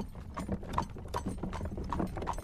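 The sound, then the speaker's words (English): A pony's hooves clip-clop in a steady trotting rhythm as it pulls a trap in Limerick, fairly quiet and continuous, with a faint mechanical rattle from the cart beneath the hoofbeats. “that was Hannah Quinn Mulligan and Grandmother Catherine enjoying a jaunt on their pony and trap in Limerick”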